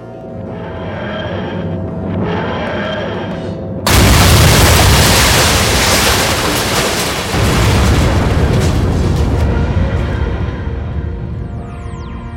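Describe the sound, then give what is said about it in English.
A building explodes: after a tonal hum, a sudden loud blast hits and swells into a long, sustained roaring rumble that slowly eases over several seconds. “Got to get out of here before the whole place explodes.”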